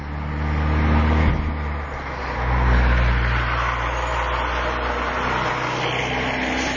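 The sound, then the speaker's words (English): A fairly heavy truck drives on a back road, its low engine rumble a steady, dense drone that swells slightly twice and carries on alone. “I don't know what this is. I'm walking directly up on a back road. It's a fairly heavy truck going forward.”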